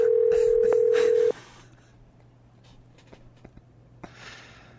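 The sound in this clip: A steady telephone tone sounds for just over a second as a call is dialed. It cuts off abruptly into near-quiet broken by a few faint, soft clicks.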